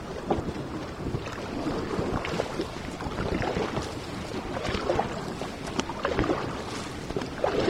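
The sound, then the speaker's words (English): Ten paddles of a racing paddle-boat crew stroking the water together, heard as continuous splashing and rushing water under strong, steady wind noise. “Ten paddles ply the waters as one.”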